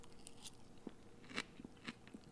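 Quiet, crisp crunches of someone biting and chewing a salad with cheddar cheese and a little ranch dressing, a few sharp bites spaced apart over soft background hiss.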